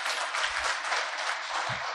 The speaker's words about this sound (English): Let's give the whole panel now a lovely round of applause.